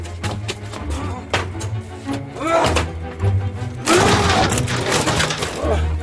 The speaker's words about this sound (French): C'est ici. Enfoncez la porte.